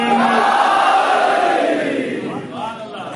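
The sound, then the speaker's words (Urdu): A large crowd at a religious majlis shouts the slogan Naara-e-Haidari in unison. The loud, sustained collective cry of many voices tapers off over the final second. “دونوں ہاتھوں کو بلند کر کے لگا دیں نعرہ حیدری۔”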